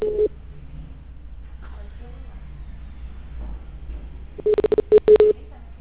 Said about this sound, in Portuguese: Aí dessa lista só tem mais um pra eu ligar.